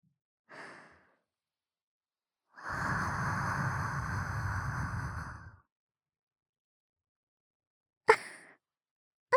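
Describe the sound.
Breath blown close to the ear: a short soft puff, then a long, steady, breathy blow of about three seconds, followed later by a couple of brief sharp mouth sounds.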